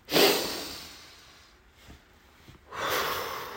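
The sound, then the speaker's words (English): Deep breaths taken during a calming exercise with hands over the heart: two loud, airy breaths, one at the start and one at the end, with a faint breath between them. No voices. “And can you take a deep breath in your heart? Two more.”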